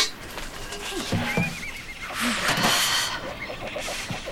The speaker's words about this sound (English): Milk? This horse doesn't drink milk. She's lucky we found her when we did, though.